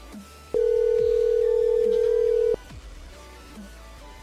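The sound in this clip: A telephone ringing tone as a call is placed: one steady, even tone lasting about two seconds, sounding alone against a faint background hum, with no talking.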